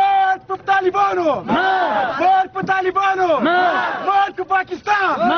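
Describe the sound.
Activists and students in Kabul chant slogans against Pakistan, a crowd shouting repeated phrases in a strong rhythmic pattern with brief gaps between chants.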